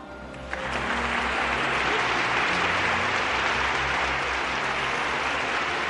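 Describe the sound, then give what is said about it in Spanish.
Loud, sustained applause from a crowd after a winner is announced, starting abruptly about half a second in and continuing evenly as a dense, steady roar of clapping to the end. “Un fuerte aplauso para el Doctor Amor.”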